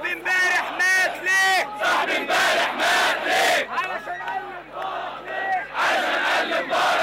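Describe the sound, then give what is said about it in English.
Jubilant crowd of thousands converging on Liberation Square in Cairo, chanting loudly in unison in repeated rhythmic bursts with short gaps between them. “As the thousands converge on Liberation Square, jubilation rings loud.”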